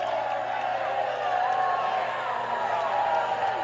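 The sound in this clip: Baseball crowd at a Shuckers game reacting to a close call at first base, a steady, unbroken murmur of many voices holding at a moderate level.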